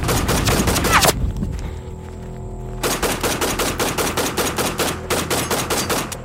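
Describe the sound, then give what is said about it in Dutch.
Gunfire is aimed at a group: a dense burst of rapid shots, then a brief quieter pause. Steady machine-gun-like shots follow, loud and evenly spaced, continuing to the end with no voices. “wordt er op de groep geschoten. En dan staat iedereen echt op scherp.”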